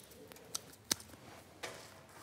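A few crisp scissor snips trim the roots of a potted plant that had grown out through the drainage holes, ahead of repotting. The quiet, sharp clicks come spaced apart, with no talking.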